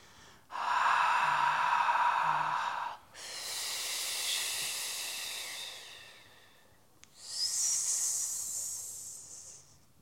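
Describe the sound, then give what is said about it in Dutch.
Three long, forceful exhalations in a breathing exercise, voiced as the letters H, F and S on one breath. A breathy rushing hiss comes first, then a broader airy fricative, then a sharp, high hiss, with brief gaps between them. “HFS, helemaal leeg elke letter, zonder inademing tussendoor. Drie letters, één keer uit.”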